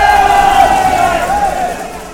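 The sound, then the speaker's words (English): A voice imitates a seal with a loud, sustained high-pitched call that wavers slightly in pitch and holds steady throughout. “My impersonation of a seal.”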